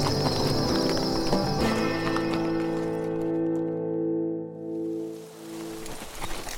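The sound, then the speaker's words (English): Horses' hooves clip-clop as riders come into a town, steady hoofbeats joined by a horse's whinny, dropping away briefly before the hooves return. “Two days after the raid on the Olsen Ranch, Smoke Jensen and his hands rode into Muddy Gap.”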